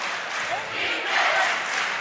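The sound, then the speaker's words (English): Crowd at a basketball game roaring wildly, a loud, continuous wash of cheering voices that swells in the second half of the short burst. “Crowd crazy here.”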